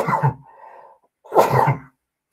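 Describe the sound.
A person sneezes: two forceful, breathy bursts separated by a short, softer voiced tone. The sneeze is loud, stands alone with no talk, and ends in silence.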